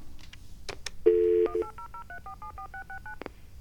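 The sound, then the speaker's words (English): Touch-tone keypad beeps dialing a fishing hotline number: a few faint clicks, one longer tone, then a quick run of short, clear beeps at shifting pitches. “Is there any fishing hotlines like 1-800-FISH-NOW? Let's try it. 1-800-FISH-NOW.”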